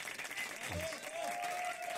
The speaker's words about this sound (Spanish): hay que meterle unos aplausos a todas esas frases. Aplausos, dije.